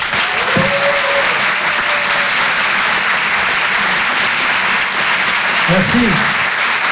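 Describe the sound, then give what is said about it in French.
An audience at a live stage event applauds and cheers in a dense, even clatter of clapping that runs for about seven seconds. A couple of brief shouts rise above it. “Je vous demande de l'encourager et de faire un maximum de bruit, s'il vous plaît, pour Adrien Montowski.”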